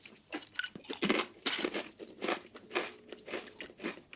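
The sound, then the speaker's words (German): Crunching of salty crispbread being bitten and chewed: many dry, crackly bursts of varying loudness in an uneven rhythm, with no talk. “Ist ganz gut, ne? Salziges Knäckebrot.”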